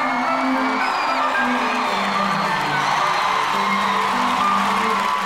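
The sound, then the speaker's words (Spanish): A crowd cheers and whoops to welcome two hosts. The cheering is a loud, continuous roar with shouted whoops and yells rising above it, and it stays at an even level throughout. “Reciban con un fuerte aplauso a Don Diazepam y a Don Lexatin.”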